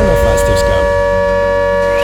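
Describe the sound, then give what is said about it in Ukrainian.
An air raid siren sounds during an ongoing air alert in Bila Tserkva: a loud, steady, unbroken tone that holds at one pitch for the whole clip, with faint mixed sounds underneath at the start. “Увага! Увага! Повітряна тривога триває. Залишайтеся в укриттях.”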